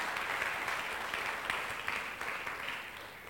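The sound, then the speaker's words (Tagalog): A church audience applauds with dense, sustained clapping that stays fairly soft and steady throughout, with a few slightly sharper swells along the way. “Sige, palakpakan natin ang Panginoon, mga kapatid.”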